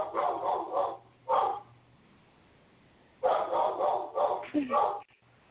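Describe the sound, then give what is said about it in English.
A dog barks in coarse, loud bursts: a cluster of barks, a single short one, then a longer run of barks, over a low steady hum. “Don't you hear the dog?”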